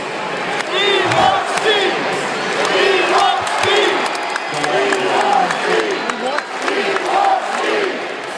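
Live audience cheering and shouting in a loud, continuous crowd roar. Repeated whooping cries rise out of it every second or so, and the noise stays strong for the whole stretch.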